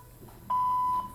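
Voicemail beep tone on a phone line: one steady mid-pitched electronic beep lasting about half a second, standing out over faint line hiss.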